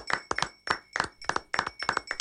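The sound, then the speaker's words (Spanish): Hand clapping welcoming a studio technical operator: many sharp, separate claps in a quick, slightly uneven rhythm, brief and fairly loud, with no voices. “El aplauso.”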